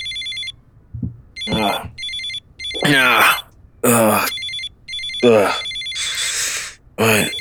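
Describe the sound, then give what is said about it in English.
A phone ringtone repeats in short, high, bright electronic bursts that keep sounding while people talk loudly over it. “you wake up to your phone ringing”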